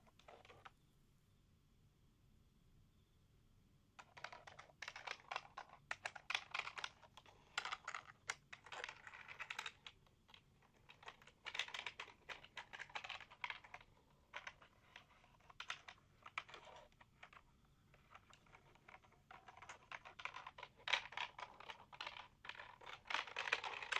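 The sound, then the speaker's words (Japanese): Typing on a computer keyboard, with fingernails also tracing over the keys. After a few seconds of near silence comes a quiet, quick, irregular clatter of many key taps that runs to the end. “打ち込むだけじゃなく、キーボードを爪でなぞってみたり、”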